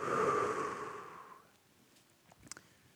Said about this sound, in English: And breathe in. And breathe out. One more time. Breathe in. And breathe out.